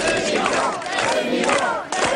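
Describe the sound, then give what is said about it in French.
A standing ovation from an audience at an American award ceremony honoring a hip-hop artist: a loud, dense crowd roar of cheering and shouting that carries on steadily throughout. “avant une standing ovation de circonstance”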